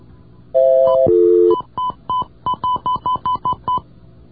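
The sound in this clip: Touch-tone telephone keypad dialing a ten-digit number with a Connecticut area code: two longer tones, then a quick, evenly paced run of many short, clear beeps, with no voices.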